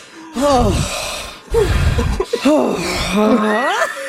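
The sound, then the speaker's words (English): A voice imitates someone panting after overeating: loud, breathy, rapid gasps with voiced, sweeping pitch, delivered in quick bursts. “He starts to pant. And he goes,”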